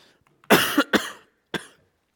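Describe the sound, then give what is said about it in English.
Coughing from a tickle in the throat: a few harsh, loud coughs in a quick cluster, then one more after a short pause, with silence around them. “I have a tickle in my throat, and I may have to cough my way through this whole message.”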